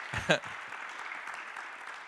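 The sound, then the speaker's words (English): Audience clapping welcomes a guest onto the show: a dense, even patter of many hands runs through the whole stretch, with a brief louder burst near the start where a voice cuts in. “Welcome, Brett. We'll clap Brett as well.”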